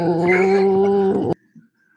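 A dog gives a steady, sustained whining howl at a fairly even pitch for a little over a second, then stops abruptly. Near silence follows, broken only by a couple of faint, brief sounds.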